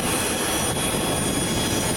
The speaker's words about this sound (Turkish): Depremzedelere destek olmak amacıyla hazırlanan arama kurtarma ve insani yardım ekiplerini taşıyan uçak İstanbul Atatürk Havalimanı'ndan Venezuela'ya uğurlandı.